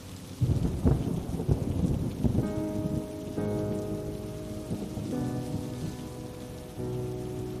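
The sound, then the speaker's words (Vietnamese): Steady heavy rain pours during a rainy-season night, a dense, continuous hiss of drops with deep rumbling underneath, holding an even loudness throughout. “Tiếng mưa, tiếng gió, tiếng lá cây xào xạc, âm thanh lũ ếch kêu râm ran ngoài sân hòa với nhau tạo thành một bản hợp ca chào mừng mùa mưa năm nay đã về.”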